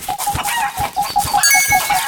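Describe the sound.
A chicken clucking in a quick, even series of short, mid-pitched calls, loud and clear, with no voices over them.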